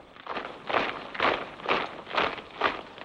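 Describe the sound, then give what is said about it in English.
A platoon of soldiers marches off in tight formation, boots striking together in a regular series of heavy, crunching steps that rise and fall in loudness with an even rhythm. “Copping watches open mouths as Able Platoon march off in tight formation.”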